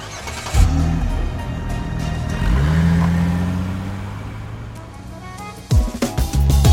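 A car starts and drives off: a sharp burst as the engine catches, then a drone that rises in pitch and swells before easing into a steady hum, with a few loud thumps near the end.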